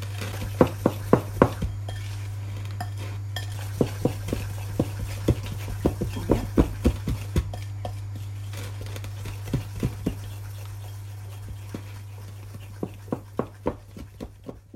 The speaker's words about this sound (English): Right, that's everything in the bowl, the biscuits, the eggs, the sugar. Okay, that's all in. So I'll give that a stir.